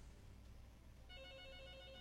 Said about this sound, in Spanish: ¿Quién será? Le voy a tomar la llamada rapidillo.